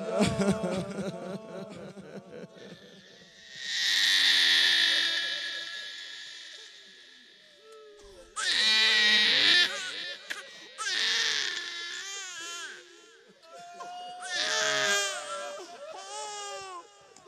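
An infant crying in drawn-out, high wailing sobs: several loud cries separated by brief quieter pauses, with softer whimpering between them.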